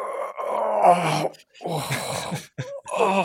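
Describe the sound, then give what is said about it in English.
A man vocally imitates men groaning in a gym locker room after workouts: a series of long, drawn-out moaning groans split by short pauses, with a brief strained sound near the end. “the amount of groaning in the locker room was insane. Guys just coming in from their workout, just opening the locker.”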